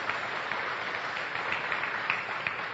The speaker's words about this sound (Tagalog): Palakpakan nga natin ang Panginoon, mga kapatid.